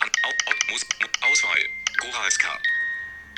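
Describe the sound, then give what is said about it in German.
An old music box tune plays as a phone ringtone, with plinking metallic notes and sustained ringing tones, partly under talk. “Oder aber, wenn jemand anruft, so klingeln. Das ist meine alte Spieluhr.”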